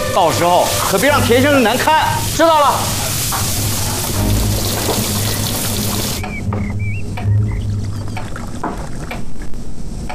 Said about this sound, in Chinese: 肖师傅，我这刚上锅去，我马上炒菜了。